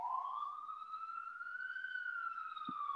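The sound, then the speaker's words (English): An ambulance siren sounds as one long, loud tonal wail that climbs slowly, holds, then dips slightly near the end, with a brief low thump just before it finishes. “listen to the ambulance.”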